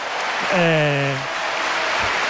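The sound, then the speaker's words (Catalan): Real Madrid stadium crowd applauding Oyarzabal and Cucurella: a steady wash of crowd noise and clapping throughout, with a sustained tonal voice rising over it early on. “la gent el públic del Real Madrid hi està totalment d'acord. Aplaudeix a Oyarzabal i també a Cucurella”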